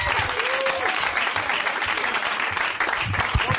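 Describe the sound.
An audience applauds to welcome a guest onto the stage at a live show. The clapping is steady and dense throughout, with a voice speaking over it.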